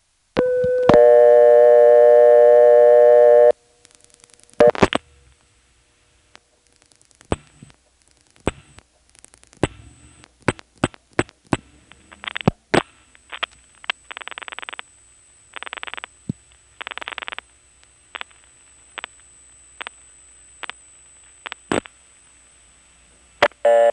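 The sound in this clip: Telephone line sounds as a phone line dial pulses into MF trunks through a 756 switching machine: a steady buzzing tone of about three seconds, then many irregular sharp clicks and short tone bursts over a faint, constant high whine.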